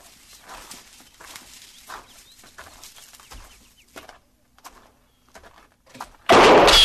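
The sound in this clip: A single loud gunshot fired from a hut bursts out suddenly at the very end, after a long stretch of faint, sparse sounds.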